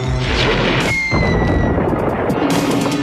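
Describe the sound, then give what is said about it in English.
Crashing blast of a blaster mask shattering a stone, a loud, dense burst of rough crunching and rumbling noise that holds strong for the full three seconds with a thin whine running through the middle. “And he uses his blaster mask now to break the stone above that was covering the hole, and the moonlight now goes back down to this chamber.”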